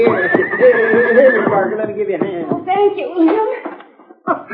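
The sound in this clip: A horse neighs in a long, wavering whinny while its hooves clip-clop in an uneven run of knocks that continues after the neigh fades.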